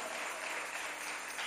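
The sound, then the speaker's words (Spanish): A church audience applauding, a soft, continuous hiss of many hands clapping at an even level for the whole moment. “Mire, hermano Dani, cómo se ve de bonita la iglesia aplaudiendo. Qué bendición que enfoquen a la congregación aplaudiéndole al Rey de Reyes.”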